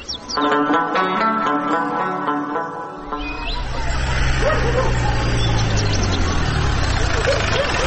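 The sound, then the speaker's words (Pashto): A car arriving, its engine rumbling into a steady, loud low drone that builds in partway through, after a few seconds of higher, tonal sounds. “لکه چې پلوشی خپله کډه راوړه، د موټر غږ شو”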